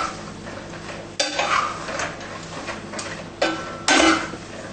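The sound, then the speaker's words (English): Food is stir-fried in a pan: a continuous sizzle runs under repeated stirring and scraping, with a few louder clanks of utensil against the pan. “We just stir fry it like that.”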